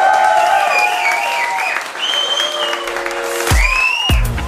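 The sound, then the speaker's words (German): Applause and cheering from about 80 to 100 people in an office building, brisk clapping with whoops on top, loud throughout the short burst. “vor mir sind knapp 80 bis 100 Zuhörerinnen und Zuhörer. Macht mal ein bisschen Lärm, dass die Leute auch wissen, dass ihr da seid.”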